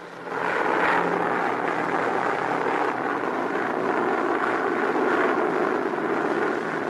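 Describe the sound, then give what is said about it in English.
Bomber aircraft flying overhead during the wartime assault on coastal Atlantic Wall defenses: a steady, loud droning engine roar holds evenly throughout without breaks. “again the bombers.”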